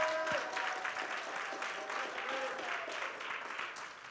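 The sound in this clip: Audience applause during a church sermon: a continuous, dense clatter of many hands that holds fairly steady, with a voice heard briefly at the very start.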